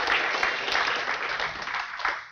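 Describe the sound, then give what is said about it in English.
Audience applause for volunteers at a talk: a soft, continuous wash of many hands clapping that dips and swells slightly, then fades toward the end. “Would you give my volunteers a round of applause?”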